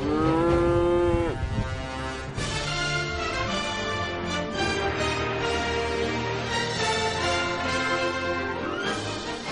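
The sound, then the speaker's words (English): Cattle of a hardy old breed moo on a Canadian farm, deep harmonic calls overlapping into a loud, continuous chorus that fills the whole stretch without pause. “And a new appreciation for an old breed. They're very popular right now. Very popular. The hardy herd conquering Canadian farms.”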